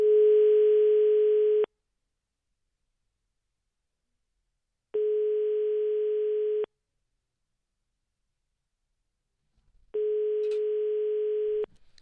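A telephone ringback tone sounds while a call waits for an answer: three steady, identical beeps of the same pitch, each lasting almost two seconds, separated by longer silences, with a faint rustle just before the third.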